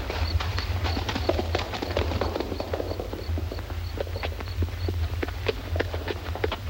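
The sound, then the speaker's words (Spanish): Horse hooves clip-clop along a deserted street in a steady, quick rhythm, with many crisp strikes running throughout over a low background rumble. “A la mañana siguiente, la sombra de Lud a caballo se proyecta en el suelo de la desierta calle.”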